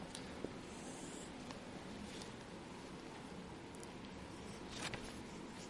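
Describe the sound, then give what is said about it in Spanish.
Writing on a board: faint, scattered scratchy strokes over a steady background hiss, with no talk. “Y voy a escribir tres elementos de la vida.”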